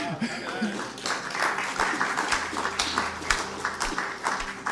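Church audience applauding in welcome: steady, dense clapping from many hands, with scattered chuckles mixed in throughout.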